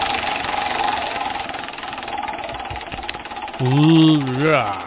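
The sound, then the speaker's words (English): Prize wheel spinning, with a rapid, steady rattle of clicks running throughout at an even pace. A voice comes in near the end. “Let's spin a wheel and find out who uh, wins the postal friendly bottle opener.”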